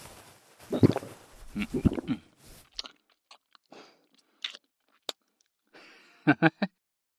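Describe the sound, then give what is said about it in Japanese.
Someone gulps down black tea in wet swallows: two heavier bursts at first, then scattered small clicks and smacks in near silence, ending with a few quick, sharp wet gulps. “紅茶全部飲んだな。”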